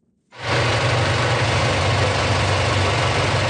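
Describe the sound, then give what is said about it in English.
An IMAX film projector running in a Halifax cinema: after a brief moment of quiet, a loud, steady mechanical drone kicks in abruptly and holds constant, with a heavy low hum beneath a broad whirring hiss. “That's the sound of the IMAX film projector working at Cineplex's Scotiabank Theatre in Halifax.”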